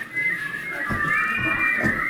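People whistle in imitation of birdsong, making a steady, wavering high tone that runs through the whole clip with slight pitch glides. Soft low rustling sounds lie underneath.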